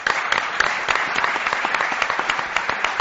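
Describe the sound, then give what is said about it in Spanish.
Applause for a performing group, with many sharp individual claps standing out in a fast, steady patter that keeps an even level throughout. “Aplauso”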